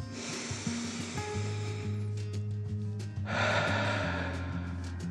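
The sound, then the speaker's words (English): During a children's guided meditation, someone takes a deep breath in and then lets it out. Two long, airy rushes of breath sound over soft, steady background music. “took another deep dragon breath in and out.”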